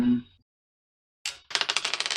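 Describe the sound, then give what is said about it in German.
Dice are rolled for damage during a tabletop role-playing game. After a short silence comes a quick clatter, then a rapid run of light, rhythmic clicks as the dice tumble and settle. “Sehr schön, dann würfel ich noch meinen Schaden aus.”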